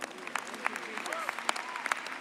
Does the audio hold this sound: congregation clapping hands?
yes